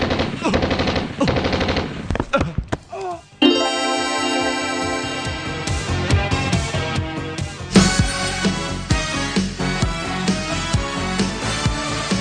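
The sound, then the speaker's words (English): Machine gun sound effect: loud, rapid, sustained bursts of automatic fire with a brief break early on and another sharp burst later, over a steady tonal background. “Yoink. The Powwow machine gun. You'll never know how you live without one.”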